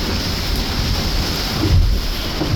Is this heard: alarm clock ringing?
no